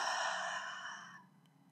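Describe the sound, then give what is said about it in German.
A deep breath released in a long, airy sigh during a calm breathing exercise, soft and breathy, tapering off and fading out within about a second. “Noch einmal tief einatmen und ausatmen.”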